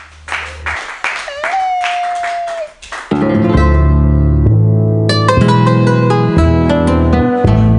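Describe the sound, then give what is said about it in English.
Audience claps for a comedian at an open mic comedy night, with a rising whistle among the claps, then keyboard intro music with sustained chords takes over. “Everybody clap your hands wildly for Ken Suzuki.”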